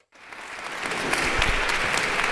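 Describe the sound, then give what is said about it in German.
Applause from a crowd greeting Gisèle Pelicot as she enters the Avignon courthouse. It starts from silence and swells quickly into dense, sustained clapping. “Dieses Ritual ist wie ein Manifest. Applaus für Gisèle Pelicot, sobald sie das Gerichtsgebäude betritt.”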